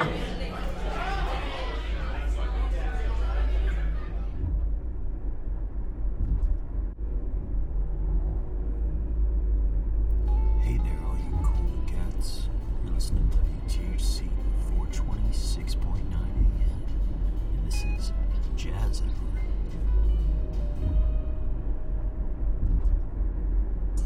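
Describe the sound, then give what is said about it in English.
A car driving on the road gives a steady, low rumble throughout, with people talking over it. “Yeah, come on. I'll take the first driving shift.”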